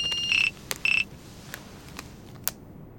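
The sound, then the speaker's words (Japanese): A phone chimes an email notification tone: two short, high electronic beeps in quick succession, followed by a few faint clicks. “なんだよ、メールか。って、俺の方にも来たっぽい。”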